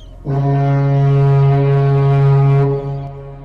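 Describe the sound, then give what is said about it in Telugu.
A ship's horn sounds from the sea near a quiet island after a storm. It is one long, low, steady blast that holds its pitch and then cuts off, heard alone. “నౌక horn వినిపించగానే Ethan”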